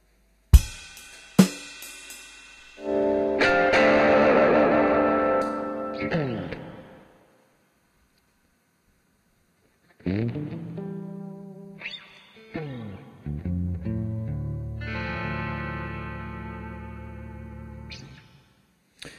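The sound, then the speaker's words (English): Heavy reverb drenches the audio: echoing, sustained harmonic tones swell and fade in a few separate bursts with long ringing tails, divided by short silences. “Hold on, let me try to downsize this reverb a little bit.”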